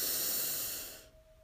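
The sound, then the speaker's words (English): A deep breath drawn in through the nose during a guided breathing exercise: a steady, airy hiss that stays strong for about a second and then fades away into quiet. “We'll breathe in through our nose, hold, and exhale”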